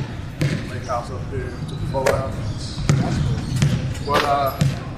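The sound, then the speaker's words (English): A basketball bounces on a gym floor in a 5-Hour Energy ad, giving several sharp, uneven thuds over a steady low background murmur with voices. “And they all shoot the ball around a little bit as they get ready for the game. I'm going to hit play on this.”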